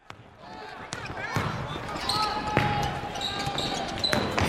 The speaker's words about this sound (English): They're playing basketball.